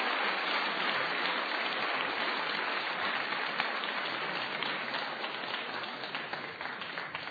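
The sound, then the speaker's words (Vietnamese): Guests applauding after a dance, a dense, continuous wash of many hands clapping at once, steady and moderately loud throughout without distinct individual claps standing out. “bởi vậy chừng nghỉ thì khách đều vỗ tay lốt bốt.”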